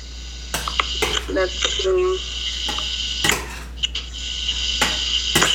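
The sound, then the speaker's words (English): A spoon stirs rice in a cooking pot, clinking and scraping against the metal in a few irregular knocks over a steady low hum. “then I gotta check my rice in a few minutes. Oh, let me stir it first before I get it.”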